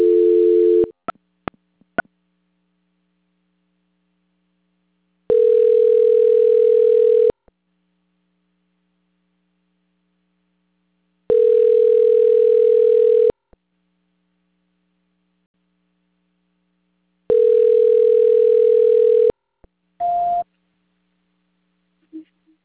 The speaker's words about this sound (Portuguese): A ligação vai ficar muda, mas não desliga, tá ok? Então, um minuto. Transferência.